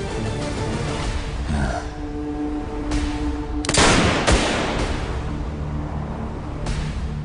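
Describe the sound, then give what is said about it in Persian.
Blank gunshots fired during a police standoff: sharp, loud bangs, the strongest pair close together near the middle, over a steady background drone. “این دوتا تیر مشقی بودن، بعدیش واقعیه.”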